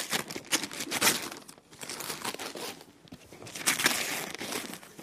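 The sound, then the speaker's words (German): Gift wrapping paper being torn open from a large present: rough ripping and crinkling bursts in an irregular rhythm, loud at first, easing into a short lull midway, then building again. “So schön eingepackt, so schnell ausgepackt.”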